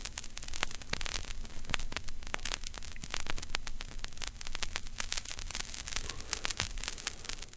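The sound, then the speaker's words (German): Vinyl record crackle as a record player's stylus rests on the disc before the music begins: faint, continuous hiss with many irregular sharp pops and clicks and a low hum underneath, no voices. “nimmt den Tonabnehmer und legt ihn auf die Schallplatte. Noch bevor die Musik beginnt, hört man dieses Geräusch.”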